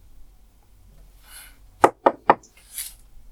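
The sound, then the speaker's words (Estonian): Knocking on a closed door: three sharp, quick knocks in close succession after a near-quiet stretch. “uks on kinni. ma koputan ukse peale.”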